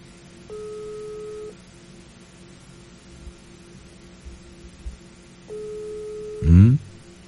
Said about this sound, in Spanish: vamos a hacer la llamada. Ahí está, le estamos marcando.